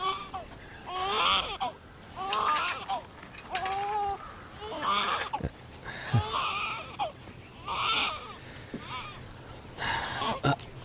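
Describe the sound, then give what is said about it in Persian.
A baby cries in repeated high-pitched wailing bursts, each rising and bending in pitch, with short breaths between the many loud sobs across the whole stretch. “بچه داره گریه میکنه. خیلی خوب، گریه نکن.”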